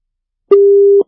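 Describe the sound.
Busy tone on a telephone line after a phone-in caller was cut off: a single steady mid-pitched electronic beep lasting about half a second, heard alone in otherwise silence.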